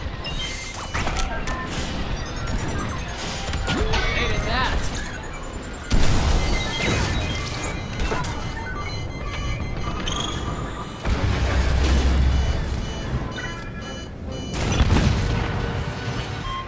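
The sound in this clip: An aircraft crashing and exploding in a combat flight video game, heard as dense, loud rumbling blasts and crashes with several sharper impacts, continuing without a break.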